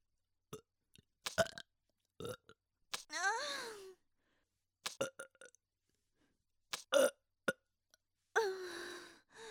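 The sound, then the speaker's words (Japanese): Burping from a person, with two drawn-out, gurgling burps that dip in pitch, separated by several short, sharp bursts of breathy or throaty sound and brief pauses. “なんでゲップ。”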